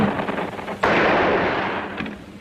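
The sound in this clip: Gunfire and explosions in a war radio drama: a dense, continuous rumbling roar broken by a heavy blast about a third of the way in, then another lighter hit later.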